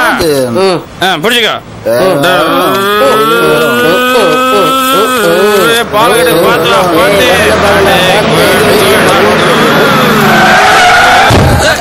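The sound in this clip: A vehicle skids to a sudden stop with a long, loud screech whose pitch wavers throughout, and voices can be heard along with it.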